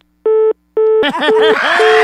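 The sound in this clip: Four short, even phone-line beeps play during a call transfer. Two beeps sound alone first, and the last two continue under a person talking.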